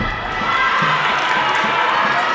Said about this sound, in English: The rest of the team picks up a cheer.